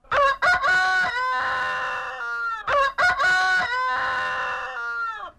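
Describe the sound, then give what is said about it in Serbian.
Roosters crowing, two loud crows in succession with no talk. Each opens with a few short, choppy syllables, then stretches into a long, harmonically rich, strained call that holds steady before cutting off. “Četvrti petlovi su ovi što su maločas zakukurikali iz Radio Beograda.”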